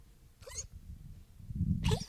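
A small dog of about eight pounds coughs twice, two short hacking bursts more than a second apart, fairly faint over a low background rumble.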